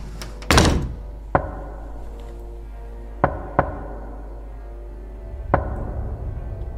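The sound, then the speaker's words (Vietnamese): Knocks on a door at night, five separate blows spaced irregularly apart. The first is the loudest, with a short rumbling tail, and the rest are sharp, isolated thuds against a quiet background. “Sau 10 phút, có tiếng gõ cửa.”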